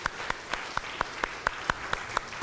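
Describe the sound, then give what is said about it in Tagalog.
A church audience claps in praise of the Lord, a steady, even beat of single sharp claps repeating at a brisk pace with no talk. “Pwede bang palakpakan natin ang Panginoon ng malakas?”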